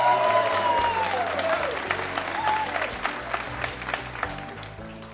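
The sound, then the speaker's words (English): A live radio show audience in a stage studio at Pensacola's Museum of Commerce applauds on a July evening, with loud, steady clapping that slowly thins and softens toward the end. “And what a great audience, too, as well. Give yourselves a big hand.”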